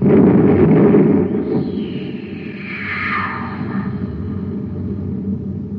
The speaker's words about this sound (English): Fire the torpedo.